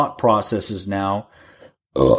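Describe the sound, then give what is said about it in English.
A loud, voiced burp in the middle of conversation, a low rough belch with people talking around it. “sorry, I didn't mean to burp. I just couldn't hold it.”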